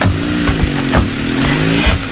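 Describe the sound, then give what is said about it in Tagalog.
A motorized tricycle engine runs with a loud, steady, buzzing mid-pitched drone marked by small revving pulses. No other sounds or voices. “Ba, si Phoebe pala yung bumaba sa tricycle.”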